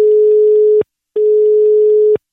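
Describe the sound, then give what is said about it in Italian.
Telephone line tone on a radio call-in, two long steady mid-pitched beeps of equal length separated by a short silence, loud and alone with no voices. “Andiamo subito al telefono su Radio Toscana”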